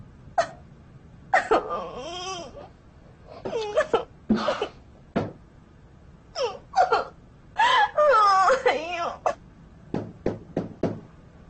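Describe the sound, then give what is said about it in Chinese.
A person crying and sobbing in repeated broken bursts of wailing with wavering pitch, separated by short pauses and ending in a run of brief, gasping sobs. “你能不能先不哭了，容我问你几句话好吗？”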